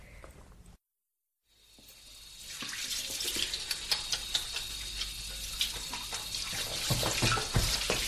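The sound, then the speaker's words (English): Tap water runs into a sink for hand washing. After a short silence, a steady hiss builds and grows louder, with splashy bursts scattered through the stream. “Shove over, I can wash my hands in the sink.”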